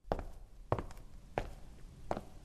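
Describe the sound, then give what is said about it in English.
Four footsteps walking onto a stage at an audition with judges, evenly spaced, fairly soft thuds with no talk. “6:15 p.m. I walk onto the stage.”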